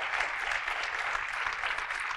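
Audience applause, a dense steady patter of many hands clapping, fairly faint and even throughout with no talk.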